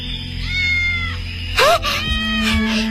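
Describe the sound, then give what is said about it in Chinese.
A small kitten, fallen into a dirt pit and trembling, gives one loud, short meow partway through, over a steady low background. “你听，好像有小猫叫。”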